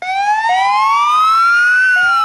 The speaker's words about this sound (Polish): W południe zabrzmiały syreny policyjnych radiowozów.